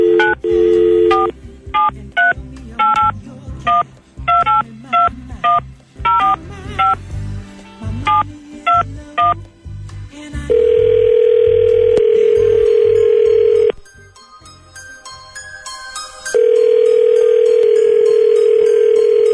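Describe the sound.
A telephone number is dialed as a quick series of touch-tone beeps in uneven bursts, followed by two long, steady ringing tones separated by a pause, loud with no voices.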